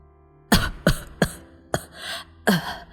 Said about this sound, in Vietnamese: Bà lại ho lên vài tiếng, chậm rãi trả lời: